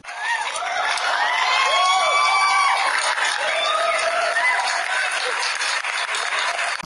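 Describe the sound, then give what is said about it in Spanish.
Audience applause and cheering greet two film guests at a show: dense, steady clapping with whoops and shouts over it, loud and continuous throughout. “¡Un fuerte aplauso!”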